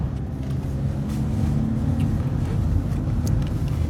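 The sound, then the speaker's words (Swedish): A car travels along a road trip, its engine and tyres making a steady, continuous low rumble that holds level throughout with no voices. “Och vi närmar oss slutet på den här bilresan. Jag tappar koncentrationen och kör fel.”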